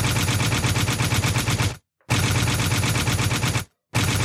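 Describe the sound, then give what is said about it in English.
Loud gunfire sound effect of a gun clip being emptied: rapid automatic shots run together in three long, dense bursts, separated by two short silent pauses. “That's me reloading and unloading the clip on Nick.”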